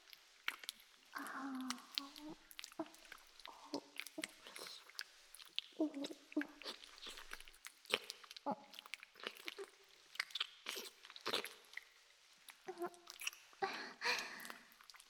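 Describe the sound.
Wet licking and smacking mouth sounds over soap foam, many irregular soft clicks and slurps in a steady stream, fairly quiet throughout.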